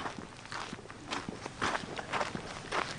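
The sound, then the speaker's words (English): Footsteps of people walking up a path, a quiet, steady run of many soft steps in an even rhythm, with no talk over them. “We'll walk up this way now.”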